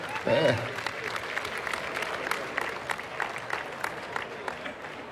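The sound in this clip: An audience applauds a best-music award winner at a ceremony: faint, steady clapping, with individual claps audible in the texture, after a brief voice at the very start.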